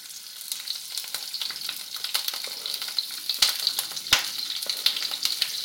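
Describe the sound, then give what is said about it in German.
Vegetables frying in hot fat in a pan: pepper strips, spring onion rings and small mushroom pieces. A steady bright sizzle with dense crackling and a few sharp pops, with no voices. “Wie man das hört, das Fett ist heiß und das Gemüse ist in der Pfanne.”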